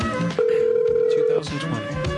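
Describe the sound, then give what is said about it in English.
An unanswered telephone ring on the line: a single steady tone of about a second, with people talking before and after it. “Well, she ain't answering the phone tonight. She don't want to pick up.”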